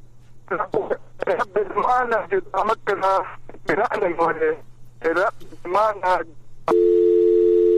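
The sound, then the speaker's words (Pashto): Telephone dial tone after a caller's line cuts off: a steady, unbroken tone that starts abruptly after voices talk on the line and runs to the end. “ورور له سره زنګ ووهه، بیا زنګ ووهه، اواز نه اورېدل کېده، لاین دې قطع شو.”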